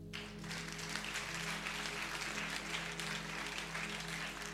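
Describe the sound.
An audience breaks into applause to acclaim Jesus. The clapping starts abruptly, then settles into a steady, dense roar over a low steady hum.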